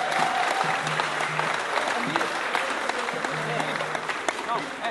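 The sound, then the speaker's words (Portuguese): Audience applause, a dense, steady wash of many hands clapping that holds at an even, fairly loud level for the whole stretch, with faint voices mixed in beneath the clapping. “Muito poucas palmas, hein? Por favor, gente. Um pouquinho de moral, por favor.”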